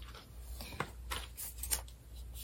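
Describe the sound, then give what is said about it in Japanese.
Faint rustling and crinkling as a new package of incense is opened, with a few short, dry bursts of handling noise and no talking. “今日はこれ新しいのを今から開封するんですけども、人工というお香になります。”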